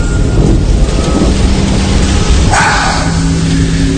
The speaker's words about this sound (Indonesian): Karena saat itu hujannya sangat besar, bahkan sesekali terdengar suara petir.